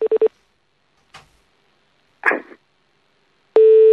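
Telephone tones sound while a number is called back: three quick beeps, a few faint clicks, then a loud, steady tone that begins near the end.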